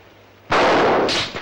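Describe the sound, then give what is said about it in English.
A single loud gunshot bursts out of near silence during a battle in the rain, its sharp crack followed by a roaring tail that holds for nearly a second before fading. “As Haney returns intermittent fire, Ronald watches from the next room. More soldiers advance in the rain.”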